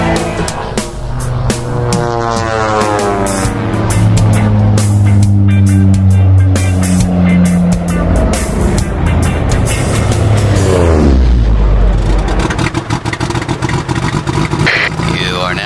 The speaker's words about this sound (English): Whoa, kill the motor, dude.